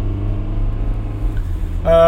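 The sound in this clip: A car being driven gives off a steady low engine rumble that runs throughout, with a brief brighter tonal sound near the end.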